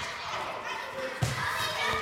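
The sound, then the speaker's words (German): A ball is thrown up, bounces on the floor and is caught during a children's sports exercise. One distinct dull thud stands out midway, with voices and children's chatter around it. “Also wir pflücken zusammen Blumen, das heißt, wir werfen den Ball in die Höhe, runter und wieder fangen.”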